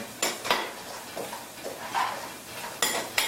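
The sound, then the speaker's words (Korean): Quiet clinks and scrapes of a utensil against a cooking pot while nuts and soy sauce are stirred together. A few sharper knocks come at the start and near the end, with soft scraping between them. “자, 섞어주시고 넣겠습니다. 자, 간장을 넣어 넣습니다.”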